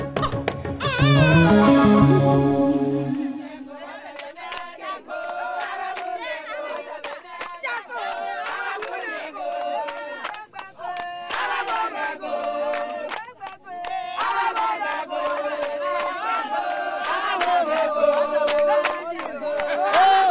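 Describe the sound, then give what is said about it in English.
Crowd voices chant and chatter at an outdooring ceremony celebrating a newborn child in a Ghanaian fishing village. Loud, tuneful voices hold and bend notes throughout, with a brief rising voiced sweep at the start. “Here in this small fishing village in Ghana, a child is being celebrated. This welcoming ceremony, pojemo, or outdooring, is held only after the mother believes that her child will survive.”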